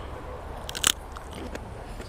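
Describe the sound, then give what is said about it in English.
A single crisp crunch of a bite into a fresh raw radish, just washed with its top snapped off. The bite is brief and sharp over a quiet background. “Okay, I'm going to have a bite of the radish.”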